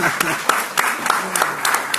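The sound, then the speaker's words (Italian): Audience applause at an association meeting forms a steady wash of clapping from a small crowd. Individual sharp claps pop out of the dense, even noise for the full two seconds. “grazie Barbara, un applauso anche a te”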